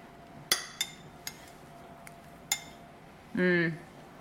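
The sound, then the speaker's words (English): A spoon clinks against a dish while serving strawberry shortcake: several sharp, bright taps spaced irregularly, varying in loudness, followed by a brief voiced sound. “Let me grab a spoon.”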